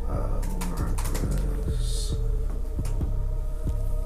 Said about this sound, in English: I can't type premium.